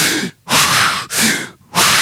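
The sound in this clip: Rapid, forceful deep breaths demonstrated as part of an intense power-breathing exercise: loud rushing inhales and exhales in quick succession, separated by brief silent gaps, with no talking.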